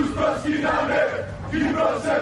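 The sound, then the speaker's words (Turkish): Crowd of Greek Cypriot protesters chanting slogans against Turkey and Turks, voices rising together in rhythmic, repeated swelling phrases with brief dips between them. “Türkiye ve Türkler aleyhine sloganlar attılar.”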